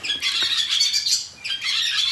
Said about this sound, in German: Ich glaube, das sind die Rauchschwalben, die jetzt so sind, Herz machen. Also sie werden wach, sie erzählen sich von ihren Träumen wahrscheinlich